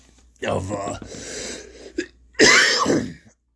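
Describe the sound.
Throat clearing and coughing from a tickle in the throat: a few rough, breathy bursts, with the last one the loudest.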